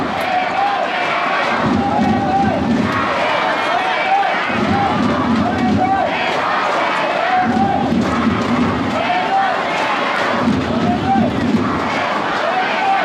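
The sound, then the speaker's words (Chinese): Football supporters at a match chant for the Longyan team, a massed crowd roaring a rhythmic chant that swells and breaks in about four repeated phrases over a steady crowd noise. “依然在高喊着龙岩队加油”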